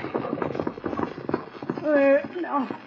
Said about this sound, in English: Rein up here now. Rein up before that old horse falls over.